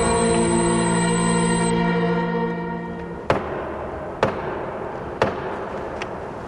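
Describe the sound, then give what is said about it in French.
Three sharp, loud knocks on a hard surface, evenly spaced, come after a sustained tone fades out, with a fainter tap trailing after them. “Bon, il a tapé 3 fois. Si tu tapes 3 fois, c'est Plus belle la vie.”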